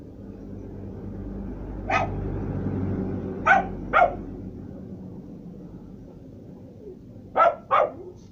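Sharp dog barking as the dog arrives. There are five short barks: one alone, then a close pair, then after a gap another close pair, all over a steady low rumble.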